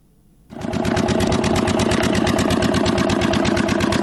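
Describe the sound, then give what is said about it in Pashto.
A diesel generator powers a pipe-making factory. After about half a second of near quiet, a dense, steady engine drone starts abruptly and stays loud and even, with a fast mechanical clatter running through it. “لدی جنراتور څخه د پایپ جوړولو د یو فابریکې لپاره برېښنا برابرېږي.”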